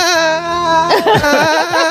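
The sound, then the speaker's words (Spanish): Whimpering cry: a wavering, sustained wail that breaks into short, choppy sobbing catches. “Sal del estudio y llora afuera. Vale, llora afuera”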